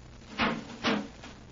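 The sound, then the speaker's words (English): Two swelling bursts of a spaceship hatch opening, each a broad mechanical hiss with a low clunk underneath, evenly spaced and heard alone without any voices. “Open the hatch.”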